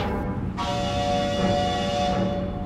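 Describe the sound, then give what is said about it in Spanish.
A train horn starts about half a second in and holds a steady, sustained tonal blast over a continuous low rumble of rail noise until the end. “El tren hace su llamada”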